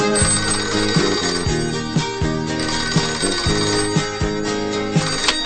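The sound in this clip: A telephone rings with a repeating melodic electronic ringtone. The bright, beeping pattern loops steadily and evenly throughout, with no talking.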